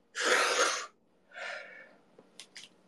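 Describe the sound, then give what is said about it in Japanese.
A deep breath taken after talk of dizziness and lack of oxygen: a loud, noisy rush of air, then a softer second breath, followed by a few faint clicks. “はい、深呼吸です。”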